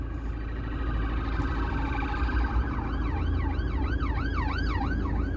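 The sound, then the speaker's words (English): Police siren wailing as it passes outside, a rising and falling tone that turns loud and steady in the second half over a constant low rumble of background noise. “The popo. It's the sound of the police.”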